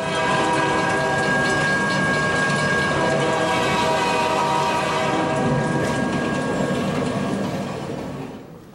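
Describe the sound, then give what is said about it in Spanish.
A train rushes past with a loud, steady rumble of wheels and carriages, and horn tones sound through it. The roar holds strong, then fades away at the end. “se escuchaba más cerca y más cerca el tren. De repente, sentí como el tren atravesó ya que pasó por debajo de mí.”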